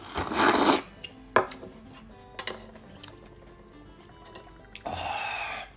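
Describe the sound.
Somen noodles are slurped in two long, noisy bursts at the start and end, with a few brief clicks and taps in between. All of it is fairly faint and without talk.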